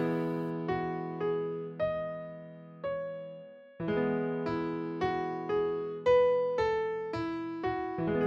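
A melody played over an E major chord, in piano-like struck notes, each ringing and slowly decaying. Many notes follow one another at a moderate, even pace over the sustained harmony, with no voices.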